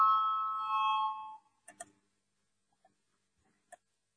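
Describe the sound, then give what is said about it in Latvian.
A bell rung in a parliament chamber to call a vote gives one steady, ringing tone lasting about a second and a half, followed by a few faint, scattered clicks. “Lūdzu zvanu, balsosim par otro tieslietu ministra Bordāna priekšlikumu.”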